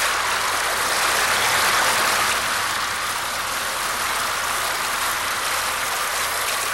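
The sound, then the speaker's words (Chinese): Loud water flows underground in a continuous, dense rushing hiss that stays steady and unbroken for the whole stretch, with no voices. “从地底下可以听到很大的水声哦。”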